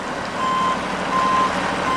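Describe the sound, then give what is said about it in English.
Reversing beeps from a truck that hauls river water and fish around a dam, evenly spaced high, steady beeps over a loud, constant engine rumble. “Trucks like this one will fill up with thousands of gallons of river water and about 150 fish per load.”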